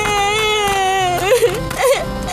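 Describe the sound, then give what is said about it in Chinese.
A girl crying alone: wavering, wailing sobs with bending pitch, breaking into short whimpering catches toward the end. “为什么一个人在这里哭啊？”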